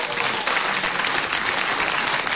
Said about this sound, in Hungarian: Zúg a taps